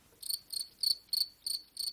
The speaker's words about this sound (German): Ich habe hier nur ein bisschen Pause gelassen, damit ich da das Grillenzirpen einsetzen kann.